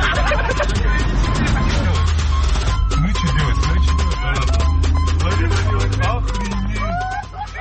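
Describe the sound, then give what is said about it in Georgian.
Inside a car driving through Moscow traffic, with a steady low engine rumble, scattered clicks and people talking throughout. “ეს თავისებური ტრანსლაციაა მანქანიდან, რუსი მსხდომნი დემონსტრაციულად აღოდნენ საგზაო მოძრაობის წესებს, არემორჩილებოდნენ მოსკოვის პოლიციის მოთხოვნას გაეჩერებინათ მანქანა”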